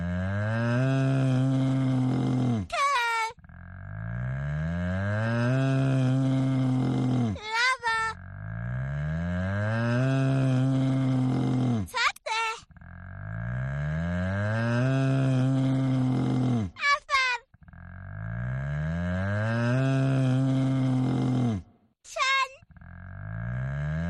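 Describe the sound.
A cow's low, drawn-out moo with wavering pitch, repeated several times in a regular pattern, each moo followed by a few short, high squeaks.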